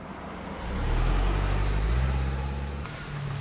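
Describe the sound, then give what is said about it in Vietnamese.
A car engine rumbles low and steady as the vehicle slows and pulls up to the curb, its deep hum swelling early and then easing slightly. “Anh ta cho xe đậu sát lề đường.”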